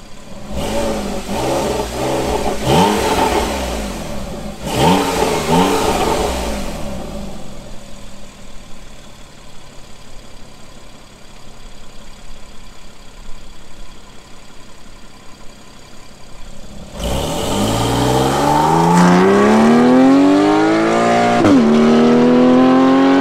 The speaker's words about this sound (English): let's check it out with the Sol Performance exhaust outside on the roadside again with the valves closed